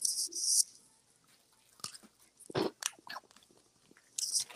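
Crunchy chewing of a dark chocolate snack during a taste test. Several loud, sharp crunching bites come in separate bursts, with quieter mouth sounds between them.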